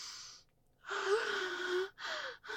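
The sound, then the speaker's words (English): A deep breath taken in faint, breathy bursts: a short intake, then a long voiced breath with a soft tone, then a shorter one, with no words. “I'll take a deep breath.”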